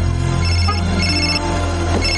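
A car telephone rings inside a parked car in a 1995 thriller drama scene. The tone is steady and electronic and carries on for the whole stretch, with no talk over it.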